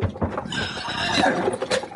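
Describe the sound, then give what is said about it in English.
Horses neighing with hooves clopping: a loud, wavering whinny over a dense, continuous clatter of hooves, with no talk. “hold on to them horses”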